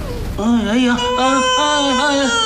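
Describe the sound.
A person crying out loud in a sustained, tearful wail, the voiced sob wavering up and down in pitch for about two seconds, loud and alone.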